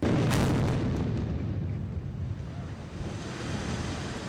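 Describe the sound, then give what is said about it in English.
An arena roof collapses in a controlled building implosion at the state fairgrounds in Oklahoma City. A loud, broad rumbling roar peaks in the first second, then goes on as a sustained, noisy rush that slowly eases. “That was the sound of the Jim Norick Arena's roof coming down in a controlled implosion.”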